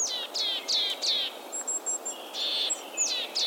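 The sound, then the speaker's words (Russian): Willow tit calling: a run of many repeated high, buzzy, downward-slurred notes in quick succession. Thin high whistles come in the middle, over a faint, steady background hiss. “Честно говоря, позывка пухляка, наверное, не самая мелодичная на свете.”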